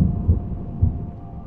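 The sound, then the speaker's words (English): Thunder cracks and rumbles through a storm around a room, a low, steady rolling roar with two heavier swells early on and no voices. “as thunder and lightning just cracks around”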